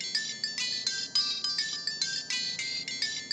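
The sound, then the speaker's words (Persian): A phone ringtone goes on ringing unanswered, a bright electronic tone pulsing in a quick, steady repeating rhythm at moderate loudness, with no voices. “بازم همون عوضیه. نگار جواب نمیدهد و او قطع میکند”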